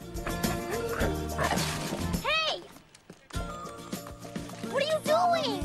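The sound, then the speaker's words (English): A dog barks over an upbeat song with singing while it runs after a boy. One cluster of yelping barks comes partway through and another near the end. “The dog appears again and canters after Billy.”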